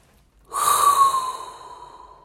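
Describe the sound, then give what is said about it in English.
A single deep breath drawn in sharply, then tapering off over about a second and a half. It is breathy and airy with a faint whistling edge, and it stands alone with no talk. “there's only one thing left to do, and that is inhale a hot breath”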